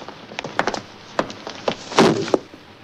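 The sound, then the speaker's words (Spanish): Heavy foot stomps come down on a lizard as a policeman crushes it under his shoe. Many short, dull wooden thuds and knocks land in an uneven run, with one broader, heavier impact near the end. “Un policía lo aplasta de un pisotón.”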